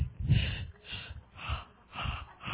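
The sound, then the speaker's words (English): A voice imitates Darth Vader's heavy, mechanical breathing: several slow, deep, raspy breaths in a steady rhythm, fairly quiet and with no speech. “I just won't breathe into the microphone. I'll be Darth Vader.”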